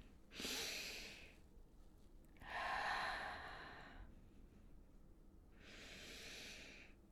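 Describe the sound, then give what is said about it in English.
Three slow, deep breaths taken during a guided relaxation exercise, each a soft, airy rush of air separated by pauses of quiet. The breaths are faint and heard alone. “I'm just going to invite you to take three deep breaths. Slow, even deep breaths.”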